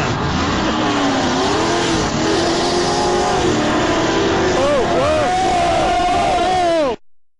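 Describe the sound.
A race car on a track roars as its back end slides and loses traction, the engine whining and revving with wavering pitch before the sound cuts off abruptly near the end.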